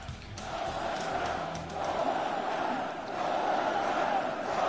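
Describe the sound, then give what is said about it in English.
A Polish crowd welcomes President Donald Trump by chanting his name. The thousands of voices merge into a continuous roar that swells and dips and is heard alone. “They could be chanting anything. What are they chanting? Donald Trump. Donald Trump. Donald Trump.”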